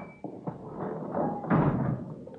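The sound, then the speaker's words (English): A sticking door is shoved open hard: a few dull knocks and thuds, then a louder scraping push as it gives way, followed by a fading rumble. “Oh, yeah, gotta shove that door hard. Sticks a little.”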